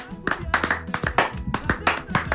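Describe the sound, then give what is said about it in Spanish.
Hand claps from people in a studio, sharp irregular slaps scattered through the moment, mixed with lively talking voices. “Mira cómo aplaudimos sin envidia. Dale, mira, mira, mira ese aplauso sin envidia.”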